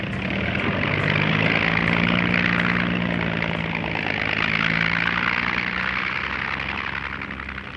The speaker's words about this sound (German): Alle 3 Minuten landet auf dem Flugplatz Tempelhof eine C-54 Skymaster.